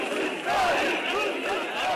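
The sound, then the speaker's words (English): A large crowd protests outside a hospital in Soma, Turkey, after a coal mine disaster. Many voices shout and call out at once in a loud, overlapping roar. “Today, a big crowd gathered outside the hospital in Soma. That's the town where the accident happened. Some were looking for loved ones still missing. Others protested against the government's poor work safety record.”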